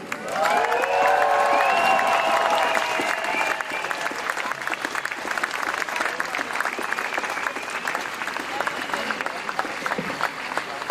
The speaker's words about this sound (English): So please, everybody, give us a very warm hand and a very warm welcome to Kathy.